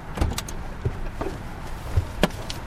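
A police officer climbs out of his cruiser in a gas station parking lot, producing a few soft clunks and rattles of the door and car over a steady background hum.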